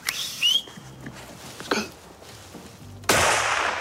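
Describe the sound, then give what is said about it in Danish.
A single gunshot fired at a roebuck during a forest hunt, a sudden loud blast near the end that rings on with a broad hiss, after a stretch of quieter scattered sounds. “Ja, så heldigvis, så ramte de noget. Skal vi lige høre, hvordan det lød, da en buk dukkede op?”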